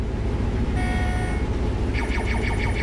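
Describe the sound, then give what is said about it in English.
Steady low engine rumble of a self-driving combine harvester working a field as its bin fills with grain, loud and continuous without pause. “Right now, the combine's driving itself. For now, Paul Heineman, Brett's uncle, is happy to watch the many monitors in the air-conditioned cab of his combine as another load fills the bin behind him.”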